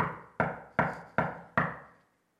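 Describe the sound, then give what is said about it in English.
Five firm knocks on a door, evenly spaced about four-tenths of a second apart, each sharp and fairly loud with a short decay. They stand alone with no voices. “Behold, I stand at the door and knock.”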